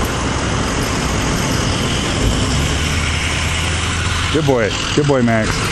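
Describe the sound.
Steady engine and road noise from a car on the road fills the whole stretch with a low rumble, and a man's voice speaks briefly near the end.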